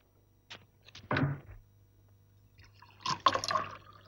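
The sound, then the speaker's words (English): A drink is poured into a glass, heard quietly as a short run of liquid among a few soft knocks and a low thunk, with near silence between them. “has poured him a drink and delivers it to his desk”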